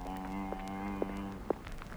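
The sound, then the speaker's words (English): A cow moos once in a long, steady, low-pitched call with rich harmonics, from a herd of about sixty cattle, followed by a few soft knocks. “Coming up to 60 head of cattle, all told.”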